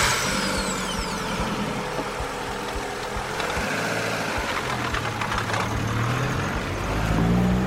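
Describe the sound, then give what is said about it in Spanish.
A woman's car arriving in a tiny rural village: its engine rumbles and idles steadily the whole time with a faint knocking texture, the level holding even before swelling slightly at the end. “viene a buscarla en su coche”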